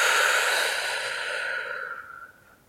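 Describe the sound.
A single slow, airy exhale during a guided breathing exercise, released after a held breath: a soft breathy hiss that holds steady and then fades away.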